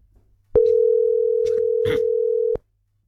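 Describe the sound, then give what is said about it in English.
A single steady telephone line tone sounds as a landline number is called, holding one even, low pitch for about two seconds before cutting off abruptly, with no voices. “Oh my gosh, it's dialing.”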